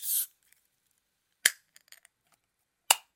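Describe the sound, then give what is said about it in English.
An Olipop soda can is cracked open: a short burst of hiss, then two sharp metallic cracks about one and a half seconds apart, with a few faint ticks between them. “I have actually a single sip of Olipop. You can do the honors of doing the ASMR. I'll crack it open.”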